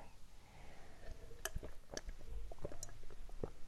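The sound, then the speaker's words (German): Someone drinking a beverage: a few soft gulps and small clicks spread over a few seconds, fairly quiet and alone, with no talk. “Ich muss erstmal gerade was trinken, das hat mich alles sehr durstig gemacht. Moment mal eben.”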